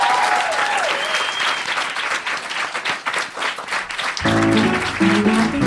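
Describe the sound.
Enthusiastic audience applause for comedian Tania Edwards at a live comedy show: a dense, sustained clatter of clapping with voices cheering early on, and music entering underneath near the end.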